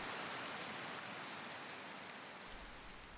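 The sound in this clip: Rain falls at night in a village, a faint, continuous, even hiss of drops with no voices.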